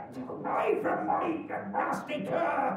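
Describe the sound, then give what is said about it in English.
A dog that has leapt from a cart barks and snarls as it goes for a guest, sharp bursts under loud, agitated voices that keep talking throughout. “Oh, now here's a to-do. Fearnside's dog's with him. It's leapt out of the cart and it's... Oh, saints alive, it's really gone for our guest.”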